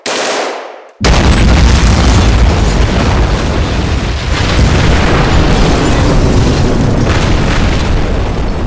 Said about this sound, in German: Ja, ich probiere eine Bombe und einen Kalaschnikow.